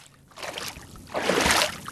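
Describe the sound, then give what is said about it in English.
Water sloshes and splashes as someone wades across a rocky, hard-to-walk-on Dead Sea floor in shallow water, a softer surge followed by a louder, fuller swirl of moving water. “I'm wading out across a pretty rocky and quite hard to walk on sea floor.”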